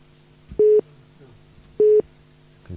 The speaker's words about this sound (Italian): Forse è caduta la linea